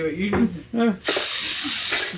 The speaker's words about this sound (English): This is the day Carmel tried to teach Tristan to use a pressure cooker.